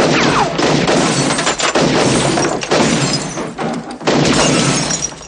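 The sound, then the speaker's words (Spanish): Loud, continuous crashing and shattering as gunshots smash furniture after a table is knocked over in a bar, in a 1990 police action film scene; dense breaking noise with a few heavier thuds and brief dips. “Tumba una mesa y dispara al mobiliario.”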